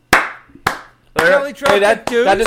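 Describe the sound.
Hands clapping in celebration of a toddler's milestone: two sharp, separate claps about half a second apart, followed by a voice speaking.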